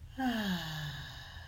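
A deep breath released as a soft, slightly voiced sigh that slides downward in pitch and trails off quietly over about a second and a half.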